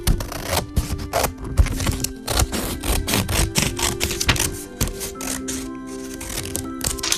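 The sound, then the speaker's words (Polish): Scissors cut a rectangle off a sheet of folded paper, making a long, fast run of crisp snips and papery rustles at steady loudness, with faint tonal sounds underneath. “Ten prostokąt na dole odetnijcie.”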